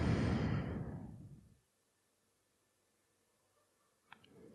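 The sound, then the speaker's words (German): A long breath out during meditation, a loud, airy exhale that fades over about a second and a half into near silence, followed by a faint, soft sound near the end. “Atme aus. Atme ein, Atme aus.”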